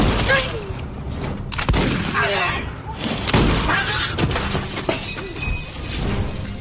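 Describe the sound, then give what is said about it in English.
An oil lamp knocked over and shattering amid gunfire in a tense horror fight, with sharp glass crashes and bangs breaking through over urgent voices. “One of them just bumped over the oil lamp.”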